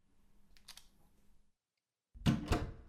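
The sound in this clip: A door being shut: faint rustling and a brief hush give way to a loud closing thud with a second sharp knock right after.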